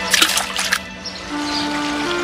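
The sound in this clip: Water splashing as mice are scooped into a river: a quick cluster of bright splashes at the start, then a quiet trickling tail under a faint steady tone.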